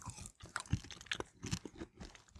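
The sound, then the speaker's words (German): Crisp crunching of fried, very fatty Parma ham chips being bitten and chewed during a wine tasting at a winery. Many sharp, irregular crunches follow one another with no talk. “Und wir haben Parma-Schinken-Chips. Und die, dann nehme ich auch mal was, dann ist das gut neutralisiert.”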